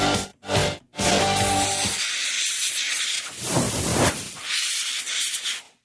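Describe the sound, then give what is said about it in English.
A cooking pot hisses loudly with steam, cutting out in two brief gaps at the start before settling into a continuous broad hiss that swells and eases. “Are you listening to that pot? Listen to that, man.”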